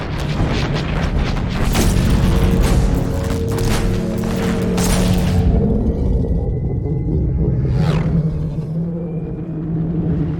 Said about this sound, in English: We've escaped, and the Quarians are unleashing the heavy guns on the Geth Dreadnought.